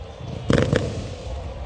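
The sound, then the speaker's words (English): Fireworks bursting on an evening in Dyersville, Iowa, after a minor league baseball game at the Field of Dreams: a short cluster of crackling pops stands out above a steady low background rumble. “Fireworks go off here on this Dyersville evening.”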